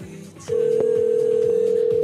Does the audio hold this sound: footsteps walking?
no

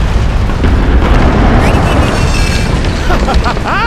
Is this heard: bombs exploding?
yes

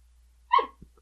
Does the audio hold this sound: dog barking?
yes

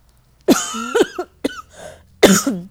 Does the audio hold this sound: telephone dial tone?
no

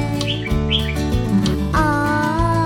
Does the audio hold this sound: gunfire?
no

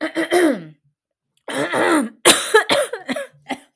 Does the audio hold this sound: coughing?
yes

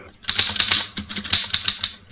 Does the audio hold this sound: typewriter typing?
yes

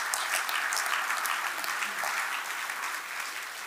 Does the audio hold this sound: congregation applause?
yes

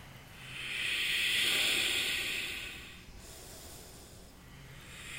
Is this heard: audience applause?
no

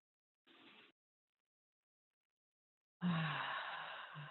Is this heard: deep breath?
yes

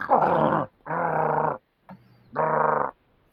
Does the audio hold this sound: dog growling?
yes

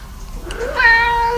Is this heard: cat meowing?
yes

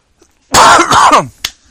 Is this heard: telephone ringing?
no

